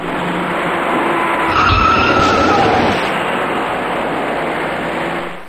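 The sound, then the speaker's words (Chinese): Tires screech as a fast white car rear-ends a car braking ahead, pushing it into a third car in slowing east-to-west traffic. A shrill squeal and a low thump rise briefly above a steady roar of road noise. “从后方快速开来的一辆白色小客猛然撞上了刚刚减速的前车，而被撞的前车又顶上了行驶在前面的另一辆小客。”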